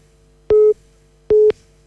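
A telephone busy tone sounds after a call line drops: two short, loud beeps at one steady pitch, evenly spaced, with no voices.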